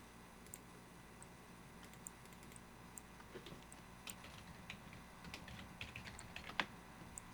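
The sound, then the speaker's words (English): Someone types on a computer keyboard, giving many faint, irregular key clicks with a few slightly louder taps. The typing is quiet and steady, and no one talks. “I'm trying to type in something, and there we go.”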